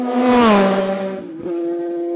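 A racing motorcycle engine on a race track gives a loud, high-revving whine. Its pitch drops over the first second, then holds steady, with a brief break midway before the note carries on.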